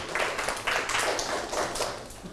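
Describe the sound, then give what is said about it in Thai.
Students in a classroom clap for a classmate who answered correctly. A soft, continuous patter of many hands rises and falls slightly over a couple of seconds. “โอเคปรบมือให้เพื่อนถูกต้องเลย”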